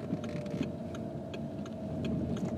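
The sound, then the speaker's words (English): Inside a car driving home from a hotel in Cork, a steady low engine and road hum with a regular light ticking running over it. “And I'm in my mobile studio driving back home, having been to a Toastmasters meeting in the Rivoli Hotel in Cork.”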